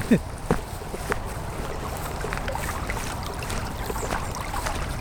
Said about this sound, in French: Entendez-vous ce bruit ? C'est l'eau de Grand-Frénois et c'est à elle qu'on doit le goût tout particulier des bières produites par Pascal Détré